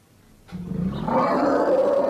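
An elephant call starts with a low, rough rumble and swells into a loud, sustained, brassy tone that holds steady for over a second.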